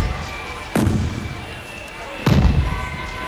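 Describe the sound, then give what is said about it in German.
Two booming ceremonial gun salute shots at a state celebration, each a loud sudden blast trailing into a rumbling decay, spaced about a second and a half apart. “Böllerschüsse.”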